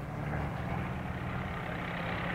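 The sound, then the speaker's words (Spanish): Heavy engine rumble from trucks, tractors and excavators arriving with huge pipes for long-delayed construction works: a steady, loud, low drone with no clear breaks and no voices. “¡Miren! ¡Camiones! ¡Tuberías! ¡Unas tuberías enormes! ¡Esos que vienen detrás son tractores! ¡Y máquinas excavadoras!”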